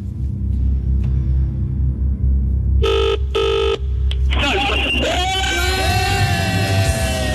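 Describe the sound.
A telephone ringing on a call being dialled to a number starting 07: one double ring of two short electronic bursts over a rumbling background, followed by loud voices.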